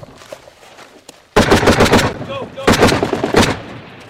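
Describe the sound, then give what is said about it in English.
Outgoing mortar fire during a combat engagement along a ridge line: after a quieter stretch, loud blasts and rapid bursts of gunfire break in abruptly, forming two dense, heavy clusters of sharp reports. “That's mortars outgoing. Incoming, incoming.”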